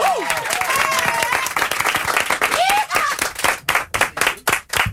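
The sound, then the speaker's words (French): Studio audience applause and cheering at a live morning show, loud and dense at first with voices whooping over it, then thinning into scattered, distinct claps toward the end. “Faut pas arrêter d'applaudir tant que le titre est parti.”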